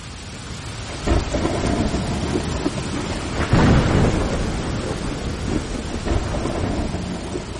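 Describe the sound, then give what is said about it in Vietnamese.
A night thunderstorm pours heavy rain in a constant loud hiss, with deep thunder rumbles rolling through it and the strongest rumble building partway through. “Ngay sau đó, cơn mưa xối xả trút xuống, như thể có người hắt chậu nước từ bầu trời đêm.”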